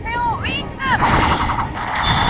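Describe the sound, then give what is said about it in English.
Birdramon's Meteor Wing attack from Digimon Adventure on PSP: sweeping, whistling tones give way to a loud, dense crackle of rapid bursts like gunfire that carries on to the end. “Piyamon, can I get you to Digivolve for us, please? Badaromon! Give it a Meteor Wing.”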